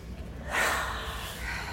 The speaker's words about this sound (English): Close your eyes. Take a big breath.